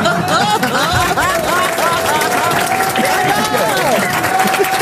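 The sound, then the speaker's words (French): A studio audience cheers and applauds, with steady clapping and a loud crowd roar carrying sustained, tonal shouts and whoops throughout. “Le public vous aide et acclame Christophe Beaugrand.”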